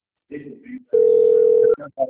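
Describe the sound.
A steady, single-pitched telephone tone sounds for under a second during a phone call about a bank message, with brief bursts of speech before and after it.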